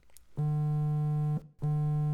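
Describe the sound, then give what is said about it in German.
A phone's text message notification sounds as two loud, buzzy electronic tones. The first lasts about a second, and the second follows after a short gap. “Ui, da kommt der SMS.”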